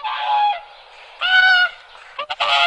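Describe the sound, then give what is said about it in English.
Whooper swan calls in the wild: a few loud, nasal, trumpeting honks with rich harmonics, the last ones breaking into short, quick notes. “Here is some examples of bird sounds. Hooper swan,”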